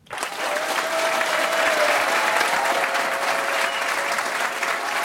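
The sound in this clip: Applause from an audience welcoming two young guests, a schoolboy and a high-school girl, on a special youth day in Navailles. The clapping rises almost at once into a full, steady patter that holds evenly for about five seconds.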